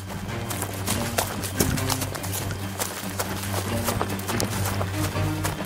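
Hurried footsteps of people running away on foot at a campsite form a quick, steady patter of many footfalls over a constant low hum.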